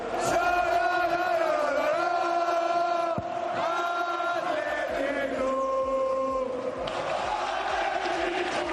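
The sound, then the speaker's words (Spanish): Football supporters roar and chant in unison at San Mamés stadium during a cup match, a loud, sustained mass of voices holding long, steady sung notes that shift together in pitch throughout. “Así sonaba ayer San Mamés y seguro que la afición del Betis también rugía con la clasificación”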